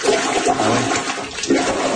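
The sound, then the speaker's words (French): Toilet bowl water surging back up during a heavy rainstorm in Mile End, a loud, continuous rushing churn of water with gurgling swells that holds steady throughout. “Grosse pluie, là, ça déborde. Les gens filment leur bol. Écoutez bien le son, c'est impressionnant. C'est le retour d'eau.”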